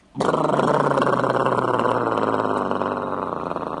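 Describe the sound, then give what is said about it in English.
A voice imitates a not-yet-repaired generator sputtering out, a loud, rough, buzzing growl that starts abruptly and holds for several seconds, easing slightly toward the end. “And their generator that wasn't repaired by me just yet kind of went...”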